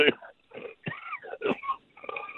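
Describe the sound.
Harsh coughing and choking from a person after smoking: a few rough, sputtering bursts broken by strained, raspy breaths and throat-clearing sounds, uneven in rhythm and moderately loud.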